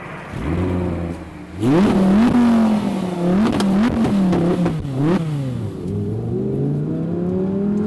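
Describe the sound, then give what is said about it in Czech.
An Audi R8 V10 Plus sports car accelerates hard on the German autobahn. Its loud V10 engine climbs and drops in pitch through several gear changes, then settles into a sustained high-revving drone. “Sice mě tady často seknou jen na 120, ale i tak nacházím řadu úseků, kdy výkon Audi R8 V10 Plus rozbalím do nesmyslu.”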